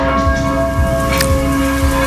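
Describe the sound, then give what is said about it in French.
Church bells of a basilica in Metz ring in unison with others across Moselle to welcome the pope, giving sustained, overlapping metallic tones with regular heavy strokes about twice a second, steady and loud. “Ici Lorraine a placé un micro devant la basilique Saint-Vincent de Metz, mais c'est évidemment tout le département qui sonne à l'unisson pour saluer l'arrivée du souverain pontife”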